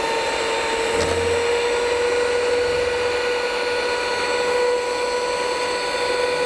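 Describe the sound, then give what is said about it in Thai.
A blender whirs as it mixes a deodorizer that was first dissolved in water. The motor's steady, high whine holds constant in pitch and loudness from start to finish, with no talk. “ตัวดับกลิ่นแล้วก็ละลายน้ำไว้ก่อนนะ แล้วก็ปั่นเข้าไปนะคะ”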